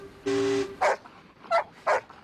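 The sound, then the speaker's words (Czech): A dog gives a drawn-out whining note, then three short, sharp barks with brief pauses between them. “A co umí ten váš pejsek? Myslím, kromě štěkání.”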